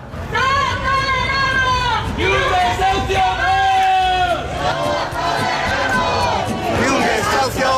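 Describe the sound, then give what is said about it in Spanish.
Protesters at a rally outside the headquarters of the property company Urbagestión in central Valladolid shout loud slogans in unison, repeated rhythmic chants over a crowd's hubbub. “Es el sonido de la concentración convocada frente a la sede de Urbagestión en el centro de Valladolid.”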